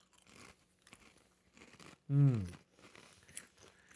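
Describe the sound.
A bite into a barbecue-flavoured chip gives one loud, brief crunch midway, surrounded by faint quieter chewing and rustling before and after.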